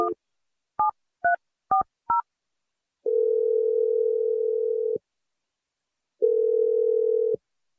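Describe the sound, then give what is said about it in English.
Phone keypad tones sound as a number is dialed to call a boyfriend: five short beeps, followed by two long, steady tones separated by a pause, with no talk. “I'm going to dial your boyfriend Adam's number and you can reveal the gender of your new baby to him.”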